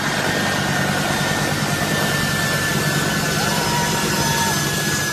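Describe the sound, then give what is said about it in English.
A C-130 military transport aircraft taxiing on the runway at Kabul's international airport, its engines producing a loud, steady droning roar with a faint constant whine, unbroken from start to finish. “A C-130 taxiing down the runway of Hamid Karzai International Airport in Kabul, Afghanistan”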